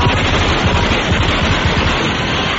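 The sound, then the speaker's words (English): Machine gun fire rattles in a loud, sustained stream of rapid shots that blur into a dense, continuous burst with no pause. “There is a machine gun trained on the producer's head.”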